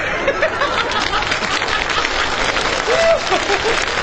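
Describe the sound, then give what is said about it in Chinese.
Audience applause after a joke at a live comedy performance: dense, steady clapping from many hands that fills the whole four seconds at an even, loud level without pause. “您还给他鼓掌。”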